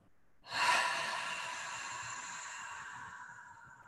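A long exhale during a guided breathing exercise: one soft, breathy hiss that begins abruptly and fades slowly over about three seconds, faint and with no voices.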